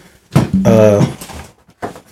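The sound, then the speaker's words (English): A window being pushed open gives a rough scrape, then a steady, strained squeal held for about half a second, followed by a few short knocks. “Are you opening the window? Just got to push it.”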